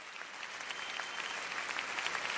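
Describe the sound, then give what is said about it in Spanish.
Steady, dense applause from a church audience during a Spanish-language worship service, many hands clapping at an even level throughout. “Fuerte el aplauso al Rey. Aplaude su grandeza. Aplaude su fidelidad.”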